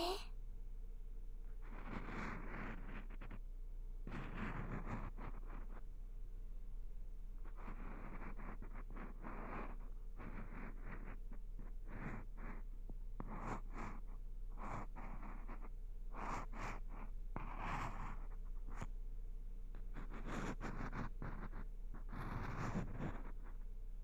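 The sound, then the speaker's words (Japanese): Ear pick scraping out earwax in a close-up ASMR ear-cleaning session: many dense, scratchy, rustling bursts follow one another in an uneven rhythm, holding a steady loudness throughout with no voice over them. “ここからは耳かき棒で耳垢を取ります。”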